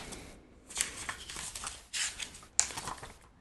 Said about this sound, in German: Ich muss aber nochmal mein Heftchen aufmachen, mein Shownotes-Buch hier.